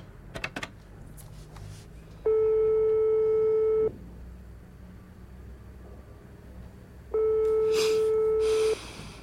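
Ringback tone of a telephone call being placed: two long, steady buzzing rings separated by a pause, with faint clicks and rustling before the first.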